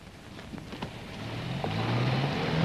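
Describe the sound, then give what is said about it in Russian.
A bus drives off, its engine a low drone that swells louder and rises slightly in pitch as it gets under way, over a faint rushing background. “А почему же этот автобус работает? Какой автобус? Вот, поехал.”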